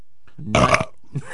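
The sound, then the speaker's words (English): A loud, gravelly belch, a rough low rasp that swells and breaks off after about a third of a second, with faint low sounds just before and after. “You go to all that trouble for the cough button, and then you give it a big belch.”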